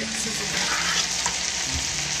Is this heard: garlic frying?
yes

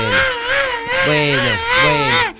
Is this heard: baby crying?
yes

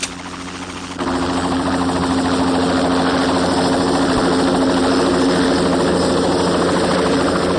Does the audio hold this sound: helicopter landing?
yes

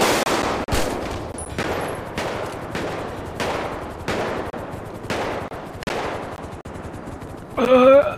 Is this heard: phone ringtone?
no

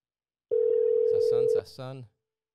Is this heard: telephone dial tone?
yes

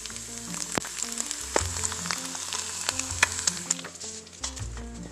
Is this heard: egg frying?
yes

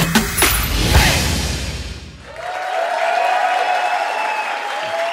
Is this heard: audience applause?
yes

